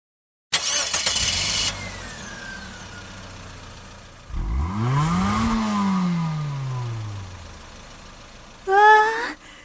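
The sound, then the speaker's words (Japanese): Car engine of a new-model car fitted with two circuits, revving after a start-up burst, its note sliding up and then falling back in pitch, before a short sharp rev near the end. “ちゃんとギアチェンジしますね。”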